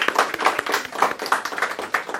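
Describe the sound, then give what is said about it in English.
Audience applause breaks out for a speaker, a dense, uneven patter of many hands clapping at once, with sharp overlapping claps, moderately loud and continuous across the moment. “Okay, I think we need a round of applause for Duncan, right?”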